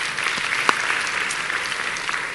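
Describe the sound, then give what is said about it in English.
A church audience applauds to welcome a family back, a dense, steady wash of many hands clapping at an even, fairly loud level throughout. “So we give them a hand to welcome them back.”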